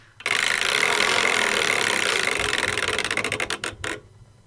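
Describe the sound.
A prize wheel spins with a loud, steady whirring rattle. The rattle then breaks into separate ticks that slow and spread apart before the wheel comes to rest.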